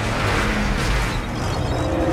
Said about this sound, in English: The convoy rolls past the building on the side opposite the window.